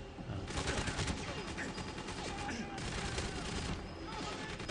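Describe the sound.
AK rifle gunfire in a video game: a dense, continuous rattle of rapid shots with overlapping bursts, fairly faint overall.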